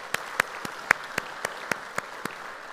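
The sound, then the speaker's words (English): A church audience claps lightly. About nine sharp claps come at a steady, even rhythm over a soft background hiss. “So if you would put your hands together, welcome them to our conversation today.”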